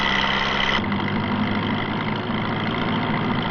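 A car engine runs with a steady, loud drone and a rumbling low end. Its tone shifts slightly early on, then holds even throughout, with no voices.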